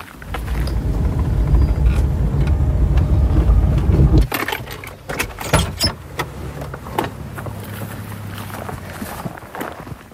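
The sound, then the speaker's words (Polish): Car sounds as people get in to drive up to the next hill after leaving a forest: a steady low rumble for about four seconds, then a run of sharp clicks and knocks like doors and footsteps over a quieter hum. “Musimy wsiąść w samochód, podjechać na następną górkę.”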